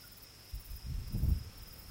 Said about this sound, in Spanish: Suenan los grillos y unos débiles tambores en la lejanía.